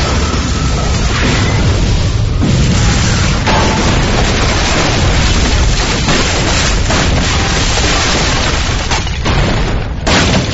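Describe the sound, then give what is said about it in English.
A pipe bomb explosion unleashes a loud, sustained booming roar, with dense rumbling and crackling debris noise that holds steady for about ten seconds without a break. “Baron O'Connor unexpectedly added a short pipe bomb. Move! But the groups needed no encouragement.”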